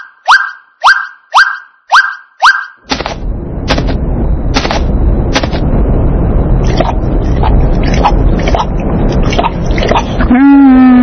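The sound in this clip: Water splashing in an animated children's story as travelers with a tired camel reach water. Five quick plucky tonal blips come first, then a loud, sustained splashing wash with scattered sharp clicks, ending on a short tone.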